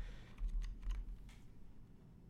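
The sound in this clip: Several faint, quick key clicks as the up arrow key on a computer keyboard is pressed over and over to make a game character jump, soft and irregular against a quiet background.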